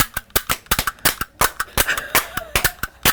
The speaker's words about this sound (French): 9 coups de feu. C'est ça, c'est pas des coups de cravache, c'est des coups de feu.